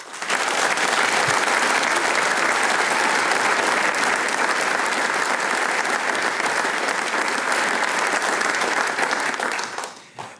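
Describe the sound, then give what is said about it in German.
An audience in the Arbeiterheimsaal in Vohnsdorf claps after a performance, a thick, even wash of applause that stays loud and steady for about ten seconds before tapering off at the very end. “Und wie der Arbeiterheimsaal hier in Vohnsdorf klingt, wenn er dieses Programm bejubelt, das klingt dann genau so.”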